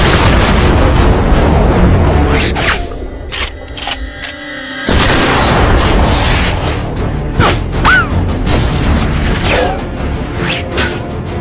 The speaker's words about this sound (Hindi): Target range में है। धमाका खेज गोले लोड हो रहे हैं। फायर करो।